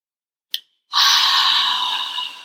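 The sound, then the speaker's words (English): A deep inhale in a guided breathing exercise: a brief click, then a single long, steady rush of breath that slowly fades, with no talk. “So on one, we're going to take a really deep inhale. We're going to pull in all new air on one.”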